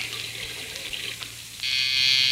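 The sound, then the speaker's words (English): Water runs from a tap in an apartment as a steady hiss, which swells noticeably louder and brighter partway through and stays strong until the end. “I've got to go and turn the water off.”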